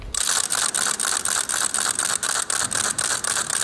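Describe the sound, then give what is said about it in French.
A small wooden ratchet rattle, the crank-turned warning noisemaker once used by lepers, gives loud, rapid clattering clicks in a continuous stream with brief regular dips as the crank turns. “C'est un appareil qu'on fait tourner, donc avec une sorte de manivelle qu'on doit faire tourner et qui fait un bruit très très intense qu'on entend de loin. Cette crécelle, elle est toute petite,”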